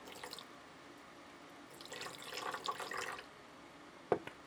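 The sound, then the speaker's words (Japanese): Liquid poured into a cooking pot makes a faint, short splashing stream, followed by a single soft knock. “この液体を釜に入れまして、”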